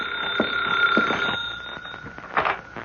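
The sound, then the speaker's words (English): An office telephone rings with a steady electric bell trill, holding a bright tone for nearly three seconds, with a few soft knocks and a brief louder swell near the end. “That's the phone ringing in your office”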